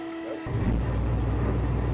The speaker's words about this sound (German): Darf ich mal fragen, den Fahrer, ist es möglich, den Motor kurz zu starten? Ja, klar, kein Problem. Achtung, starte